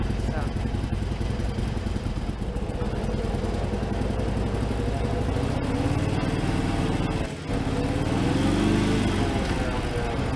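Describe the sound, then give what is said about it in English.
Engine of a manual-transmission car accelerating under throttle toward about 25 miles an hour, then shifting up: a loud, steady, rough drone with a brief dip near the end, after which the engine pitch climbs again. “match it with a little bit of throttle, get up to about 25 miles an hour or so, and then shift up in a second.”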